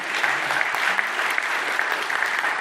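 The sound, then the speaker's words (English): Audience applause: dense, steady clapping from many hands, fairly loud and even throughout, with no pauses. “some of them clapped”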